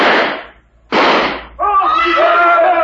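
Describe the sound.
Two gunshots ring out about a second apart, each a loud, sharp blast with a short decaying tail. A sustained tonal sound follows right after.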